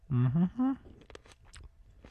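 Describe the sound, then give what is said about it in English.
Biting into and chewing a ripe cherry tomato: a short three-part hummed vocal sound comes first, then a run of soft, wet crunches and clicks. “I am no tomato judge, but I'm going to taste one here and see if it's sweet.”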